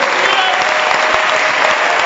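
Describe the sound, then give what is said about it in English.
An audience claps hands during a church sermon, producing a loud, steady wash of applause that holds evenly throughout with no break. “Clap your hands again.”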